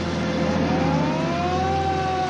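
Traffic starting up again as an ambulance pulls away: a steady, dense rumble of car engines with a faint tonal whine that slowly climbs in pitch, continuous for the whole stretch.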